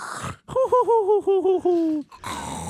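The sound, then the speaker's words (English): A voice imitates the snoring of a sleeping guard tipped back in a chair against a wall, giving a quick string of throaty, wavering voiced pulses that ends in a longer drawn-out tone, with brief talk at the edges. “He's snoring like”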